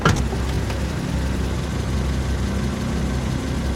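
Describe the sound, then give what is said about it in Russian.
A car engine rumbles steadily as the car pulls away from an office building, a low, even drone that holds at one level throughout, with no talk. “Машина отъезжает от здания конторы.”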